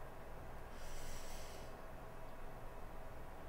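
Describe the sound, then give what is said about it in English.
A deep breath drawn in during a guided mindfulness break: one soft, hissing inhale of about a second, faint against steady background noise. “So we're going to breathe in.”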